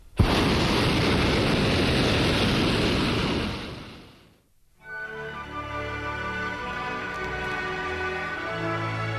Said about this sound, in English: conversation aloft is punctuated by blasts from the burner